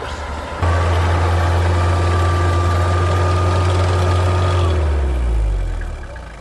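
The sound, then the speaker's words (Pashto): Car engines idle in a traffic jam on a road, a loud, steady low drone with a constant hum. Near the end the hum slides downward in pitch and fades slightly; no talking. “استاد شاته را په دغه سیمه کې لیدل کېږي چې زیات شمیر موټر په لاره کې بند پاتې دي.”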